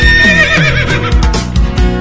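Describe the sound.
Neighing of a Marajó horse: a single loud, quavering whinny whose pitch wavers up and down before breaking into rougher, lower bursts near the end, heard alone without talk.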